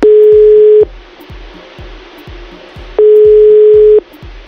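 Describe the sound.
A telephone ringback tone sounds while someone is being called: two loud, steady mid-pitched tones of about a second each, separated by a long pause, with faint regular low pulses underneath.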